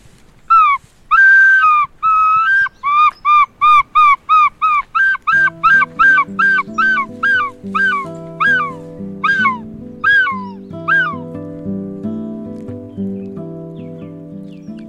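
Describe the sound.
A man's voice imitates a gull's call with many loud, repeated squawking cries at a steady rhythm. Music comes in partway through and carries on as the cries fade.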